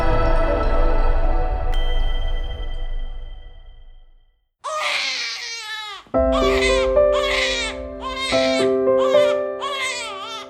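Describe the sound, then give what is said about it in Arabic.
A newborn baby girl cries just after birth in repeated high, wavering wails. A few seconds of sustained tonal sound come first, and steady tones continue beneath the cries. “عيناها راتا النور لاول مره في حياتها قطع ما يربطها بامها تبكي وتبحث عن حضن امها ليهدا روعها”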